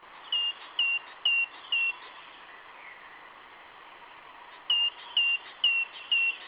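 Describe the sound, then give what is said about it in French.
A great tit sings two phrases of four short, clear, high whistled notes, evenly spaced, with a silent gap between the phrases over a steady faint background hiss. “Et le chant de la mésange charbonnière, il est comment ? Il est comme ça.”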